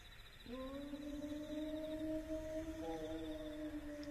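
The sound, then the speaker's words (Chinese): A person imitates a wolf howl with one long, sustained vocal tone that rises slightly and is rich in harmonics, held steadily for several seconds over a low background hiss. “狼，是狼嚎。 这地方还有狼？ 要有狼就好喽，这是人学的狼叫。”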